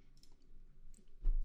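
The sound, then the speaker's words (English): A few soft, quick clicks, repeated rapid clicking while playing a video game, faint and alone over low background noise. “I keep multi-clicking here.”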